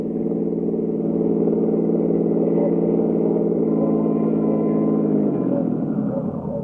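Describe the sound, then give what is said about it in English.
A car driving, heard as a loud, steady engine drone with a smooth hum that holds level, then drops lower in pitch near the end, with no talk. “In company with Lieutenant King, I drove over to 1132nd Avenue, Jerry's Laundrette, from where the search would commence.”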